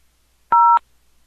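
A single telephone keypad tone, pressed on a phone answering a prayer line: one steady, dual-pitched beep lasting about a quarter second, loud and alone against near silence.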